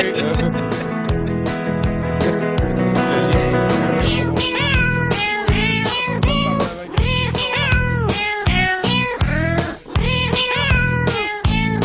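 Cat meowing: many short, arching meows repeat in a steady rhythm over a loud, dense backing with a regular low beat. No talk is heard.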